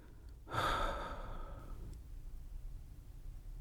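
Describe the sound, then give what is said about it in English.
A single slow, calm breath, drawn in through the nose and released through the mouth: one soft, airy whoosh that swells quickly and then fades gently, faint and alone against a quiet background. “Take a few more breaths in this way. Inhale through the nose and exhale through the mouth.”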